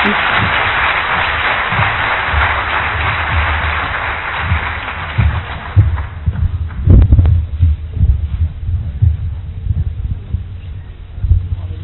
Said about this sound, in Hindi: और आइए हम प्यारी शिवानी बहन का स्वागत करें शानदार ताली से है